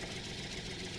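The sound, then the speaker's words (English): A tractor engine running, giving a brief, faint, steady idling drone with a low rumbling throb and no voices. “here's the sound of a tractor.”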